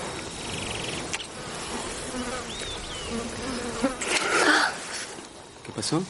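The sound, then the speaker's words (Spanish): Mosquito buzzing: a thin, whining insect drone that drifts in and out at moderate to faint level, with a few brief rustling sounds and no clear speech. “De pronto un mosquito pica a María Teresa en el cuello.”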